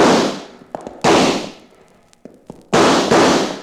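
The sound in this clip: Gunfire in a western shootout among rocks: three loud blasts, each trailing a long fading tail, with a few smaller sharp cracks between them.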